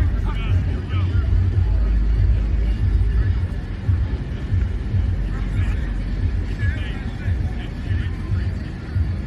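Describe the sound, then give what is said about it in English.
Wind roars against the microphone at an outdoor football practice, a loud, continuous low rumble that buffets unevenly throughout the whole clip. “Just please ignore the sound. Obviously, you got the wind and the practice noises, but check it out.”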